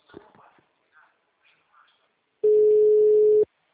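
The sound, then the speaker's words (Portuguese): A single steady electronic phone tone sounds after a dropped call: one sustained mid-pitched beep lasting about a second, following a few faint, brief sounds. “Caiu a ligação.”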